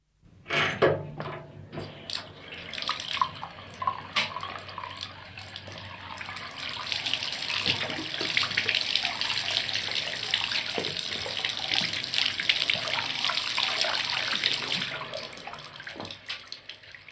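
Scalding hot water gushing from a tap to fill a bathtub, a continuous loud rush with scattered splashes and knocks at the start, running steadily for over fifteen seconds.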